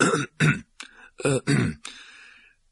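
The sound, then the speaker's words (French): A man clears his throat nervously in a few short, rough bursts that trail off into a softer rasp. No other voices are present. “Monsieur Dursley, un peu nerveux, s'éclaircit la gorge.”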